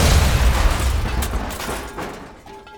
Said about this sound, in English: thrown back by the limo suddenly exploding